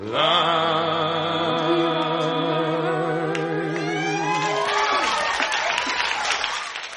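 A live audience cheers and applauds at the end of a folk song. The closing sung notes and held chord give way to a broad burst of clapping and cheers that carries on to the end.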